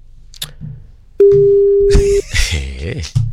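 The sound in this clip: Telephone line tone while a call is being dialed: a single loud, steady low beep lasts about a second, with soft voices and other noises before and after it.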